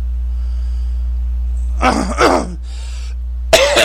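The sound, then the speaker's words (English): Throat clearing: a few harsh, rasping bursts of breathy noise in quick succession, then a last burst near the end, all over a steady low hum. “Sorry about that. My throat really needs to be cleared today.”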